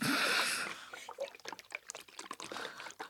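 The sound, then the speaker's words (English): Green juice made from apple, watermelon, lemon and kale is poured. A short rushing pour at the start gives way to a string of light, uneven splashes and trickles. “That is the sound of green juice. Cheers. Cheers. That green juice, it's full of apple and watermelon, lemon and some kale.”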